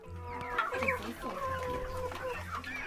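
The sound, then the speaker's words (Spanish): A person imitates a chicken, mimicking clucking with the voice in a quick series of bright, nasal clucks and squawks that rise and fall in pitch, fairly loud throughout. “¿Hablas algún otro idioma? Sí, el idioma pollo. ¿Cómo es? ¿Podrías decir alguna cosa en idioma pollo?”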